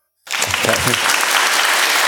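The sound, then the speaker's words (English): Applause from a church audience during a Sunday service bursts in after a brief silence, then holds as a steady, dense wash of many hands clapping at even loudness until the end. “We might be setting a record, 4 claps in one Sunday and one announcement.”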